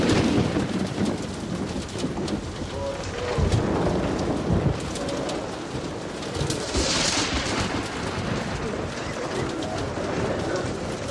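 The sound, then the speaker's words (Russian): Heavy rain pours during a thunderstorm, a dense continuous hiss with deep rolling rumbles of thunder swelling around the start and again partway through. “Сквозь дыры в крыше церкви сверкает молния. Начинается дождь.”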